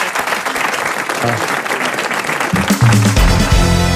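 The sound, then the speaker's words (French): Applause for a poetry prize winner, a dense and steady clatter of many hands clapping that carries on throughout and grows slightly louder toward the end. “Grand prix du poésie RATP, on vous applaudit mademoiselle Marie Volta.”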